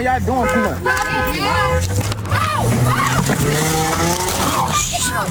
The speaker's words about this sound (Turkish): Polis memurları onu zorla indirmeye çalışınca da gaza bastı.